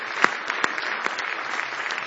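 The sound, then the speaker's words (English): A church audience clapping their hands in praise during a service, a steady, loud patter of many claps with a few sharper individual claps standing out above the rest. “Now give the Lord a big hand clap of praise tonight.”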